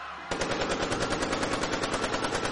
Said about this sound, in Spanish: De pronto, 4 hombres se bajan del camión y comienzan a lanzar granadas de mano. Acto seguido, comienzan a disparar.